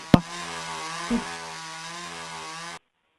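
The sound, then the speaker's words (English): A chainsaw engine runs ready to cut, holding a steady buzzing drone for under three seconds with a sharp knock at the start and a brief bump midway before it cuts off abruptly. “I'm ready to start cutting when you are. I know how to use this puppy. Yeah, go to the dollar store, okay? Go, okay, I can bye-bye. cut up the dollar store with the chainsaw.”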